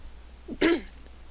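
A woman clears her throat once, a short, rough, mid-pitched burst rising out of quiet, with no talk around it.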